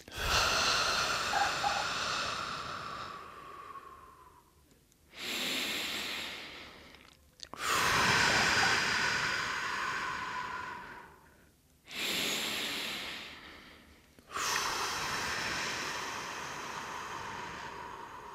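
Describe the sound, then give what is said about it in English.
Slow, deep breaths, drawn in through the nose and let out through the mouth. Long, airy exhales alternate with shorter inhales, about five breaths in all, each separated by a brief silence, with no talking. “begin to take 3 just deep breaths. In through the nose, out through the mouth.”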